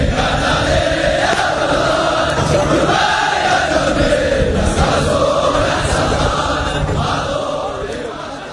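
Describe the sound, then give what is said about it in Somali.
Massed shouting of Gorgor soldiers yelling and threatening during NATO training: a loud, unbroken wall of many voices that holds steady, then tapers off near the end. “waxa ugu badan ee tababarkooda waqtiga la geliyo waa qaylo iyo boolo xofteen iyo hanjabaad sida laga dheehan karayo codkan soo socda”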